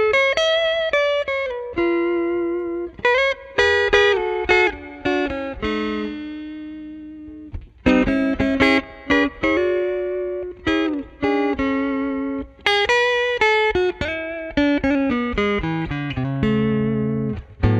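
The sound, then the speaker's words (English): Clean electric guitar played on the neck pickup through a Deluxe Reverb amp with reverb, a rich, fat tone carrying a lively melody of single notes in a western-swing style, with brief gaps between phrases and no talking. “That's really a rich, fat sound that I like for that neck pickup.”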